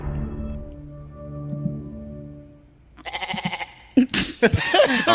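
Goat bleat sound effect tacked onto the end of a streaming service's startup tune: a low sustained tonal chord gives way to a few loud, wavering, nasal bleats that end on a higher, sharper cry.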